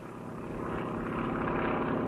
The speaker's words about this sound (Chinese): 杜聿明的部队从徐州仓皇撤退，当走到一个村子时，一架飞机赶来，投下一个小降落伞。